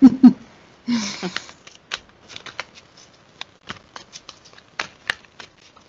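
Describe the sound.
Tarot cards are shuffled for a reading: a brisk riffle opens with a burst of papery fluttering, followed by many crisp, scattered taps and flicks of cards.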